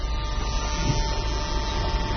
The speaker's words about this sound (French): Et cette machine qui marche très bien. Le Impex Nagra VPR5. Voilà. Alors ça, c'est un appareil ouvert dont on entend complètement le bruit.